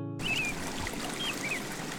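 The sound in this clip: River water from the Avon in Stratford flows with a soft, steady, faint rush. A few brief high chirps sound above it.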